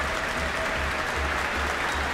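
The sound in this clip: Audience applause at the Michael Fowler Centre for a soloist returning to the stage after a Copland concerto with the New Zealand Symphony Orchestra: a steady, dense wash of clapping that holds at an even level throughout, with no voices.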